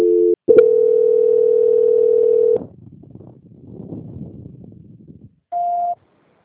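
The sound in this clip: A steady telephone tone sounds during a call transfer, holding loud and unbroken for about two seconds after a brief opening blip. Soft, crackly line noise follows, then one short, higher beep.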